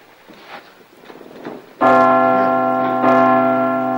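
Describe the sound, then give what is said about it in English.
Giant church bells pushed into swinging ring out suddenly after a stretch of quieter, softer sounds. They give a loud, rich, sustained metallic tone, and a second strike renews the ringing near the end. “Flat on the beam and shoves the giant bells with his feet.”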